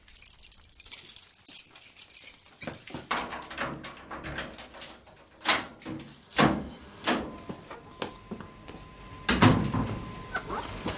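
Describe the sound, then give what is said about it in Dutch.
A gate being opened, heard as a busy run of metallic clanks, rattles and scrapes of uneven loudness, with sharper knocks scattered throughout. “Open die poort, snel.”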